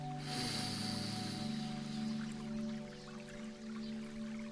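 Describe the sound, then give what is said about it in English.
A slow, deep breath drawn in through the nose during a guided meditation, a soft, airy nasal inhale lasting several seconds over a steady, quiet sustained drone. “close your eyes and take a slow, deep breath in through your nose”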